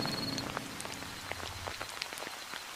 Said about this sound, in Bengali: বৃষ্টির জলে ভিজে যাচ্ছে তার গোটা শরীর নেহাত এখন গরমকাল তাই একটু হলেও রক্ষে কিন্তু তাও যা বাতাস বইছে